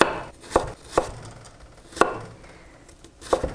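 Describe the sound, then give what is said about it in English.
A knife slicing vegetables by hand into thin matchstick strips gives several crisp, sharp chops on a board at an uneven pace, clear and unaccompanied by talk. “So the trick to doing nice matchstick slicing is to keep all the slices kind of lined up, so you can just then tip the slices over on their side and cut them into thin”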